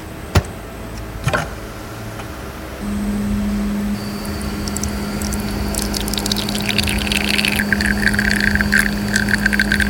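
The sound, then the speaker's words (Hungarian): A coffee machine brewing as coffee flows out: two sharp clicks, then a steady humming pump drone, joined later by a growing hiss with sputtering crackles as the coffee pours. “És mindjárt le is folyik a kávé”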